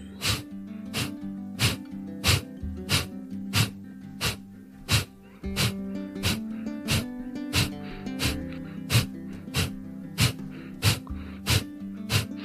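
Rapid, forceful nasal exhalations of Kapalabhati breathing: a long, evenly spaced run of many short, sharp puffs over a steady, sustained tonal music bed.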